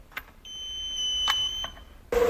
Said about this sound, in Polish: Dotykamy pestką panelu sterowania i wybieramy swoje miejsce parkingowe.